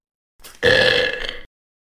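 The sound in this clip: A long, loud burp from a father, starting with a quieter rumbling onset and swelling into a strong, throaty belch that lasts about a second before cutting off sharply.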